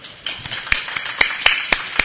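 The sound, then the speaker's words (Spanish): Clapping at the close of a conference talk: sparse, sharp hand claps at a steady, even beat, standing out above a low background murmur. “Un aplauso para Urchi.”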